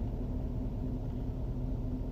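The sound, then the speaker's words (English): A steady low rumble comes from a 1963 El Camino car driving by, an even, faint engine drone with no clear rise or fall. “I'm looking at a beautiful El Camino driving by. It's a 63.”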